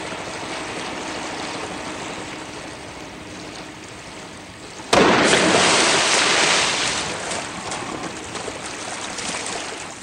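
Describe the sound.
Water splashes as a man jumps from the parapet of a bridge into the water below: a sudden loud burst about halfway through, then sustained rushing, churning noise after a stretch of steady background wash.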